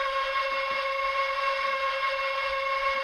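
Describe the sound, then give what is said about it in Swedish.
A locomotive sound effect plays from a train sound app on a small model train. It is a steady, continuous whistle-like drone with several sustained tones, holding an even loudness throughout with no talking. “Och det ljudet kommer från loket? Ja, det kommer från loket.”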